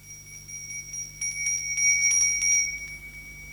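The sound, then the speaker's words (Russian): A small bronze handbell decorated with a lion is rung by hand. It gives bright, high metallic tones in a quick series of strikes, with a shimmering ring that lingers between them, alone and fairly faint. “Пергаментная рука старого лорда тянется к бронзовому колокольчику, украшенному британским львом.”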